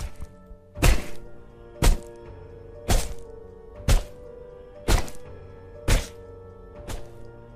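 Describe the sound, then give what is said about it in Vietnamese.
Dull, dry thuds of a wooden chair striking a head, seven heavy blows landing in an even rhythm about a second apart over a faint steady hum. “Nó lao ra cầm cái ghế gỗ trong buồng của mẹ, nghiến răng nghiến lợi, đập mạnh vào đầu thằng em. Những âm thanh khô khốc, lạnh lùng vang lên”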